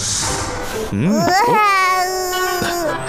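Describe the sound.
A young child cries in a wavering, high-pitched wail that rises and falls, starting after about a second of steady background noise and continuing loudly to the end.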